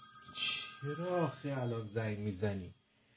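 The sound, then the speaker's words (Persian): A telephone ringtone plays a few bright, melodic tones that rise and fall over about two seconds, then stops abruptly. “چرا آخه الان زنگ میزنی؟ چرا آخه؟”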